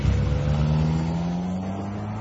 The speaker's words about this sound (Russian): Двое взрослых и мальчик сели в машину, хлопнули дверцы, и автомобиль укатил.